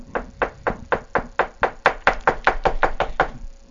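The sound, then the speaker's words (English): Rapid, steady knocking at a door: a long run of evenly spaced, hard raps that fills the whole stretch, loud and without voices. “a knock at the door.”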